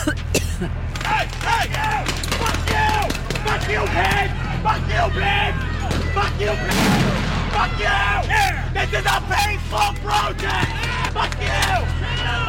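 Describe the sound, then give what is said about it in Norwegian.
Riot police fire tear gas during riots in Los Angeles, heard as a single sharp bang amid a crowd's constant hubbub, with a person talking excitedly over it throughout. “Det skyter tåregass her, så det en veldig... Derfor måtte vi løpe, så nå står vi bak sperringene.”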